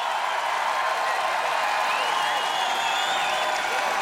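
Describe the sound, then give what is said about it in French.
A concert crowd of about 40,000 people cheering, a broad and continuous roar that swells evenly, with no distinct individual claps standing out. “Ah oui, le public acclame. Ah, vous entendez, c'est ça, 40 000 personnes.”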